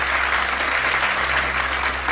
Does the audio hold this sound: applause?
yes